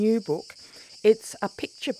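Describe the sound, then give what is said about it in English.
Cicadas sing as a steady, high, unbroken buzz that runs beneath a voice talking in short phrases. “It's the sound of cicadas.”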